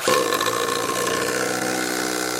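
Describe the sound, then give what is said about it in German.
A power drill drives a screw in without a pilot hole, fitted with the wrong bit: a loud, steady motor whine with a buzzing, strained tone holds throughout, with no talk. “Ich sage, es ist der falsche Bit und wir hätten vorbohren müssen.”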